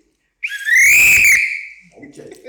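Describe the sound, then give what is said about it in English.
A handler blows a whistle to call a shooting dog back during a field trial: one loud, shrill blast of about a second that fades out, followed by faint background noise. “Blow on the whistle for it, let me see what that was.”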